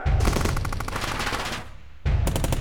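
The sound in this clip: Gunfire erupts after an order to open fire: loud, rapid automatic bursts in a dense continuous rattle that briefly thins out, then resumes just as hard.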